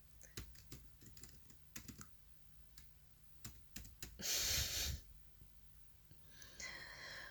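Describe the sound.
Typing on a laptop keyboard: quiet, rapid key clicks in short irregular bursts separated by brief pauses, with no talk.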